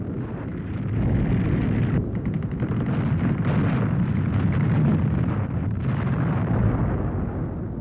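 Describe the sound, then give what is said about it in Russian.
A massed artillery barrage from some 2000 Soviet guns on a frosty winter morning by the Neva river makes a dense, continuous, roaring rumble of fire, loud and unbroken, with no single blasts standing out. “грохот 2000 орудий разорвал тишину зимнего морозного утра.”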